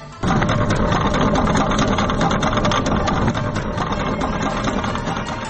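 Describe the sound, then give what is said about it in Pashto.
A cable crossing over a river, built by local people to replace a collapsed bridge in Nurgal district, Kunar, gives off a steady mechanical drone with rapid clicking. It starts abruptly and stays loud throughout. “دا د کونړ په نورګل ولسوالۍ کې د نړیدلې پل پر ځای د خلکو له لورې پر سیند جوړې شوې زانګو ژغ دی.”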